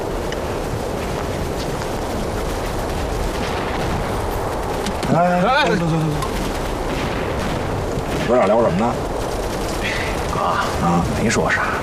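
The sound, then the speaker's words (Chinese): Gunfire and artillery from a distant battle in the war against Japanese troops, a steady rumbling roll of shots and booms that continues underneath men talking. “哎，听那边，瞅人家打的多热闹，咱这啥时候也能捞着一场硬仗打打？”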